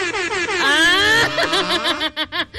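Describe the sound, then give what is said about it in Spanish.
A cheap-sounding vehicle horn honking: a sustained, buzzy, blaring tone whose pitch sags slightly, then breaking into a few short, choppy bursts. “O sea, bien pinchurrienta el claxon.”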